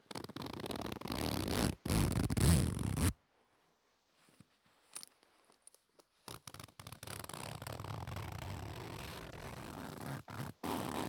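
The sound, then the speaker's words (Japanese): Rasping zipper pulls on a light, cheap pencil case with a long zip: a few drawn-out zipping strokes, then a near-silent pause with faint ticks, then more long zips ending in short tugs. “ズボンとかについているやつじゃなくて、筆箱とかについている軽い 安い系の、安物系のファスナーですね。”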